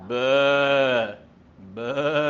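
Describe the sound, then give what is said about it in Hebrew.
A human voice imitating a sheep's bleat: two drawn-out, nasal, wavering calls, the first about a second long, then a brief gap before the second, both loud and alone. “איך כבשה עושה?”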